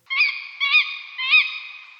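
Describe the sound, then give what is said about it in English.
A tawny owl gives three alarm calls, each a harsh, nasal, honking note with a strong harmonic ring. The calls are loud, evenly spaced and heard alone. “The tawny owl also sometimes makes an alarm call that sounds like this.”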